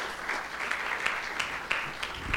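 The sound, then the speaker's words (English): Audience applause welcoming a pastor to a church gathering in Broome: steady, dense clapping from many hands holds at an even level throughout, with a few sharper claps standing out and no voices. “put your hands together and give Pastor Marika a very, very warm Victory Life Room welcome”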